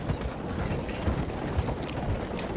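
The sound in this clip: Hoofbeats of a horse ridden back to camp in a video game, a fairly faint, rhythmic clopping of low thuds repeating steadily over a dense, noisy background.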